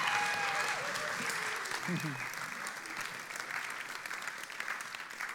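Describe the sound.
Audience applause in a morning church service welcomes a visiting preacher. A dense, steady wash of clapping runs the whole way through and eases slightly after the first couple of seconds.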